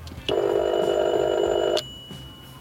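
A telephone rings on an outgoing call: one steady, buzzing ring of about a second and a half, followed by quiet.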